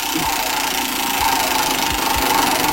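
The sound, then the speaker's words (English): A spinning prize wheel in a number-guessing game whirs with a steady mechanical rattle, like a small motor. A few soft low thumps sit under it, and the sound carries on evenly with no talk. “Hold on, here we go. Spinning the wheel.”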